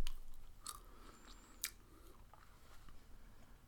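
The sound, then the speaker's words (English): Someone chews nut pie filled with caramelized walnuts and hazelnuts, making faint, crunchy mouth sounds with a few sharper crackling bites among softer chewing, and no talk. “I don't know how to eat without making noise.”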